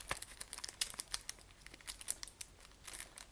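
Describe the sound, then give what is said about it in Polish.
Plastic foil wrapping on a disc is torn open with help from scissors. Many quiet, rapid crackles and crinkles rustle on throughout. “którą trzeba będzie też z folii jakoś rozerwać. Chyba sobie pomogę nożyczkami, bo inaczej nie wyobrażam sobie za bardzo jak”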